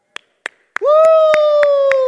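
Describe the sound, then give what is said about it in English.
One person claps alone during a church sermon, giving about seven sharp, evenly spaced claps. A sustained whooping voice joins after the third clap and carries under the rest. “woo! I'm the only one clapping.”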